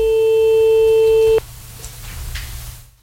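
A loud, steady telephone tone sounds while a call is being placed. It holds at one pitch for about a second and a half, then cuts off abruptly and leaves only faint low hiss.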